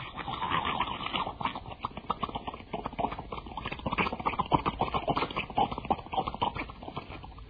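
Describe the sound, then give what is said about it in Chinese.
A horse's hooves clip-clopping crisply on a cold, overcast day with a light north wind and a few snowflakes. Many quick, even hoofbeats follow one another steadily, moderately loud and alone. “马蹄子声清脆”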